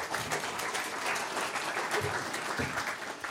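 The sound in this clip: Audience applause welcoming a guest, a steady, dense wash of clapping that holds at an even level throughout without fading.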